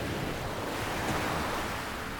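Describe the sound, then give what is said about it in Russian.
Churning sea water roars in a dense, steady rush of waves and surf that fills the whole clip at a constant, fairly loud level. No separate splashes or talk stand out. “Его последние слова заглушили внезапный грохот и плеск забурлившей воды.”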